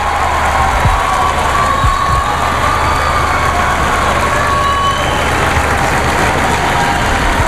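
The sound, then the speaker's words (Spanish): Crowd noise fills the street outside a church facade during an inauguration. A dense, steady wash of many voices and cheering carries a low engine-like rumble beneath, with no single voice standing out. “Ahí está, el sonido de la calle.”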